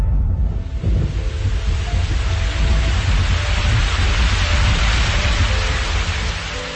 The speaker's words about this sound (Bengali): ঝমঝম করে বৃষ্টি নামল।